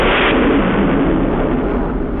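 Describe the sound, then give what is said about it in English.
Broken earth explodes after a missile strike, a loud, sustained rumbling roar that stays dense and heavy from start to finish with no clear separate blasts. “No, it ripples, shudders, bulges, and as if in answer to the missile, explodes again.”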